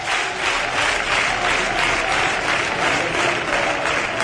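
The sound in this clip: A football crowd roars and applauds at the new Arcángel stadium during a free kick, a dense, steady wash of noise with soft rhythmic swells that runs without a break.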